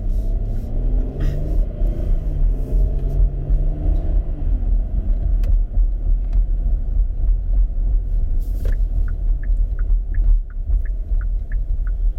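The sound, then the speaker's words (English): A 2021 Kia Telluride SUV with all-wheel drive and an 8-speed automatic is shifted into drive and pulls away. Its steady, deep engine rumble holds throughout, and faint regular ticking appears near the end. “We're going to drop this down into drive. And away we go.”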